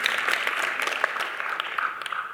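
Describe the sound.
Audience applause at a church gathering, a brisk burst of clapping that stays fairly full before thinning slightly toward the end, with no voices over it.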